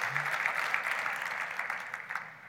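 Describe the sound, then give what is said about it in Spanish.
Applause from a church audience: a dense, even patter of many hands clapping at moderate loudness for about two and a half seconds, with no speech over it. “¿Podemos darle un fuerte aplauso al Señor?”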